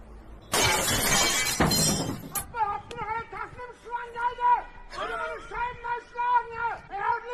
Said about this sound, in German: Es geht los mit dem Hitman-Clip und der Entglasung.